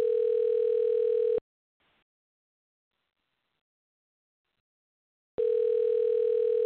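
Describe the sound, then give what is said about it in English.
A telephone line tone sounds as a call is placed: two long, level, buzzy tones separated by about four seconds of silence, with no voices. “So let's see if we can get them on the line, folks.”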